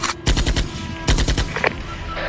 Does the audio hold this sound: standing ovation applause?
no